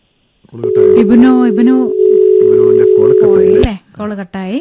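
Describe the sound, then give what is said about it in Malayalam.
A telephone dial tone sounds after a caller's line is cut off. The steady, flat tone runs for about three seconds under a voice talking over it, then stops abruptly. “ഉത്തരം പറയാൻ ചിലപ്പോ ഇല്ലാഞ്ഞിട്ടാണോ call കട്ടായതാണെന്ന് തോന്നണം.”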